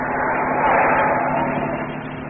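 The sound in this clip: A car drives through a dark alley toward the docks. Its engine and road noise make a steady, continuous rumble that stays at a fairly constant loudness throughout.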